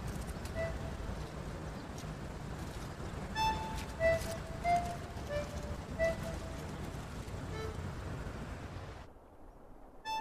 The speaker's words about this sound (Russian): Олег в машине. Трогается, едет дальше по грунтовой дороге.